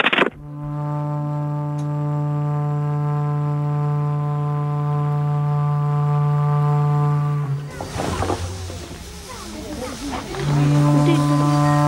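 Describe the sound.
A calf being untied lets out one long, steady, low moo lasting about seven seconds. Rustling noise follows, and a second low call begins near the end.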